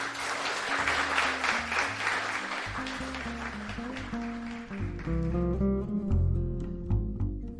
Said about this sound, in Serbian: Za kraj još jedan puta aplauz za poeziju Petra Matovića.